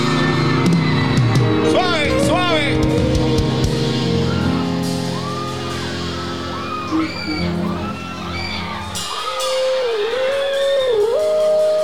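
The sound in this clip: A crowd raises a loud clamor of shouts, yells and whoops, a dense and continuous roar of many voices throughout.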